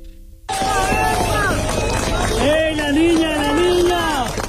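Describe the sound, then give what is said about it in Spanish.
A crowd cheering and shouting at the rescue of a three-year-old girl found alive under a building after an earthquake in Colombia; loud, continuous babble with raised, excited voices throughout. “El sonido de la celebración del rescate de una niña de 3 años con vida bajo un edificio en Cali, una de las ciudades más afectadas por el terremoto de Colombia.”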